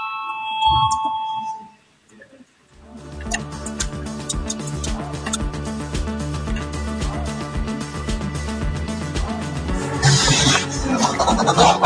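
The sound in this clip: A voting bell rings in the Latvian parliament. After a short, quieter opening, a dense, buzzing electric ring sounds continuously for about nine seconds.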